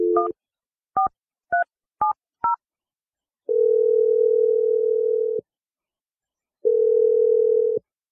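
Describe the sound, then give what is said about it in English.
A telephone number is dialed with five quick touch-tone key beeps of varying pitch. Two long, steady ringback tones follow, separated by silence. “I'm going to dial her number. We'll see if she answers.”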